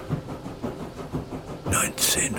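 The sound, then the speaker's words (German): A train rolls over the rails across Russia in 1917, bound for St. Petersburg: a steady rumble with regular low thumps about every half second, then louder hissing bursts near the end. “Ich bin dieser Zug. Ich bin der Zug, der über Russland rollt.”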